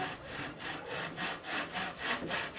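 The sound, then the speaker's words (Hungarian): A saw cuts a piece of wood in half to make it thinner, producing many quick, regular back-and-forth rasping strokes in a steady rhythm, fairly faint. “Vagy fél kettőbe vágom, hogy vékonyabb legyen.”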